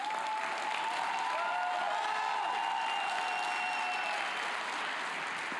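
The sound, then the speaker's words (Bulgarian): Applause from an audience clapping on a church balcony: dense, steady clapping that continues without a break for the whole stretch, with no spoken voice over it. “Виж колко неадекватно пляскат на балкона.”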